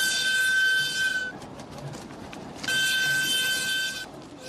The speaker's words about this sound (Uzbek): Xitoydan yuk tashuvchi poyezd 2 hafta yo'l yurib, chorshanba kuni ilk bor Afg'oniston shimoliga, Hayratonga yetib bordi.